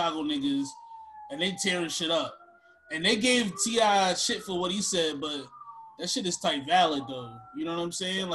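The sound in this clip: Emergency vehicle sirens near a highway, a wailing tone that glides downward in long sweeps beneath steady, loud conversation between people talking over it.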